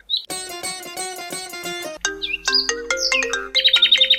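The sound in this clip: A mobile phone ringtone sounds for an incoming call: bright electronic chimes. A run of evenly repeated tones gives way to a varied melodic phrase, which ends in quick repeated beeping notes, loud and with no talking.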